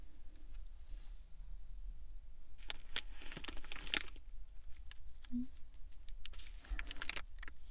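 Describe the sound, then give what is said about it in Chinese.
Quiet crinkling and tearing of a packaging bag being opened, with scattered crackly rustles and a couple of brief, denser bursts of plastic noise. “现在把包装袋撕开。”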